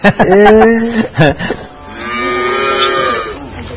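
Dairy cows mooing: a few loud, low, drawn-out moos with a wavering tone, the last one long and sustained, with no talk.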